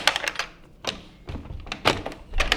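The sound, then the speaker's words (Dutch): A stuck door being pushed and pulled open produces a few dull thuds and knocks of varying loudness, with no voices. “Wilt jij misschien even de deur voor mij openen? Want dat wil ik doen. Dan moet ik mijn handschoenen niet uitdoen. Het zou kunnen dat die vast is.”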